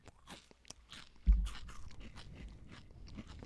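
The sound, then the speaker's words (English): Someone chews a mouthful of dry Mini-Wheats cereal with a raisin filling, giving crisp, rapid crunching. One loud, sharp bite stands out partway through, surrounded by a steady stream of smaller chewing crunches, with no talking. “So these are mini wheats with raisin in the middle, dry as dry can be. Here we go.”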